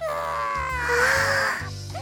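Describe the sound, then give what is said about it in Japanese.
A young girl crying: a loud, high, wavering wail with sobbing breaks and shifts in pitch, heard alone without words. “はあ、サトコちゃんが泣いてる。”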